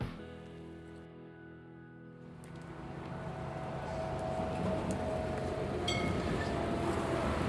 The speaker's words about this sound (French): aujourd'hui, on est sur l'île de Nantes, sur la ligne 3 du tram